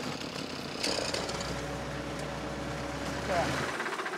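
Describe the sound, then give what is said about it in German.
A tractor's front loader raises its arm while the engine runs, giving a steady mid-pitched engine drone with a low hum that holds for several seconds. “Behutsam hebt Ludger den Frontlader an.”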